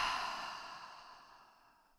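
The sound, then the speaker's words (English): A slow, deep breath out through the mouth during a guided breathing exercise: a single airy, sigh-like exhale that starts fairly strong and fades steadily over about two seconds, with no voices. “Take a deep breath in through your nose and out through your mouth.”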